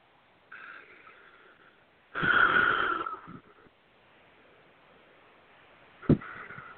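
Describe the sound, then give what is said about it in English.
A deep breath in and out: a soft, airy first phase followed by a louder, rushing second phase, then near quiet with one brief sharp tap. “Take a nice deep breath.”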